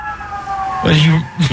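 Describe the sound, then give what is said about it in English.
An emergency siren sounds in the background, a steady, moderately loud wail that gives way to a voice talking over it. “the sirens in the background is pretty funny”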